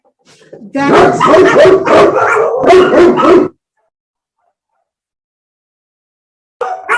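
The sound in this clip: A dog barks loudly in a quick, continuous run of sharp barks lasting a few seconds, then falls silent.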